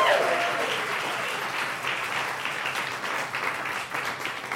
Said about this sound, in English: A hand for Aaron. Very good.